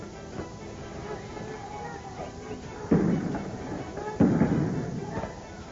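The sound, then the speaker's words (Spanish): Tear gas grenade launcher shots fired by police at a student protest in Córdoba, where bottles and molotov cocktails are being thrown: two loud, sharp thudding blasts stand out against a steady, noisy background. “Escuchan disparos de gases lacrimógenos. Los estudiantes lanzan botellas y bombas molotov. Y la policía contesta con disparos de bombas de gases lacrimógenos.”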